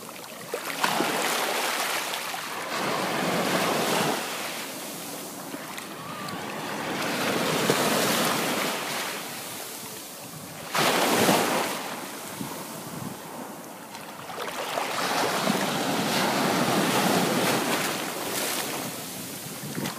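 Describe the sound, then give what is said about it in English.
Ocean waves crash on a beach in Kauai. Broad, rushing surf swells and recedes in slow cycles, with several louder breaks rising over a constant hissing wash. “That was the sound of waves crashing at the beach in Kauai.”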